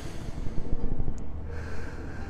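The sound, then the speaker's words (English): A deep breath with a noisy, snorting, nasal quality: a rough, uneven rush of air that settles into a steadier airy flow partway through, heard alone without talk. “You sit down, you take a deep breath.”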